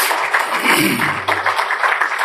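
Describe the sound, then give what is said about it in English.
A round of applause from an audience for guests asked to stand, with a dense, steady wash of clapping that holds at a loud, even level. “I want them to stand up back here. So give them a round of applause.”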